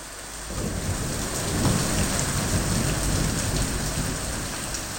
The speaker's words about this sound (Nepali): चिन्ताको विषय छ त यो भारी वर्षा र छानाबाट चुहिरहेको पानी